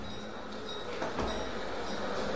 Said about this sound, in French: Là on est sur un boulevard parisien, en juillet 1886, on se dirige vers la gare, donc on entend finalement la vapeur des trains.